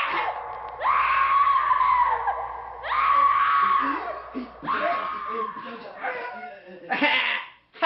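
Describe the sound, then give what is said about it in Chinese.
Terrifying screams interrupt a sermon in a synagogue: several long, strained, wavering high cries in quick succession, rising and breaking off, followed by shorter yelps. “突然被恐怖的尖叫声打断”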